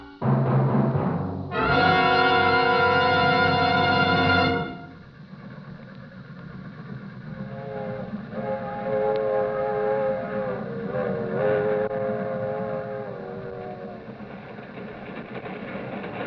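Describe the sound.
A freight train slowing down for a crossing gives a loud, sustained horn blast lasting about three seconds, then settles into a lower, steady rolling rumble with faint tonal sounds above it.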